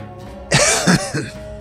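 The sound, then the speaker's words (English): A voice performs a rough, throaty cough for a wounded man lying behind a sand dune: three quick, loud bursts, the second strongest, alone without talk. “I hear that cough.”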